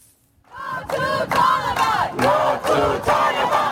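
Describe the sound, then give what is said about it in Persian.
Afghan women protesters in Toronto chanting slogans against Taliban rule: a loud crowd of voices shouting a rhythmic chant in repeated bursts, rising from near silence. “صدای زنان افغان که در بیرون از افغانستان تنین می‌اندازد. معترضان در شهر تورنتوی کانادا با سردادن شعارهای علیه حاکمیت طالبان”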